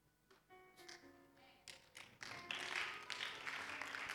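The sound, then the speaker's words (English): Clapping from a church audience during a sermon, starting as a few scattered sharp taps and building into dense, louder applause over about four seconds. “I can feel the clapping. I can feel it.”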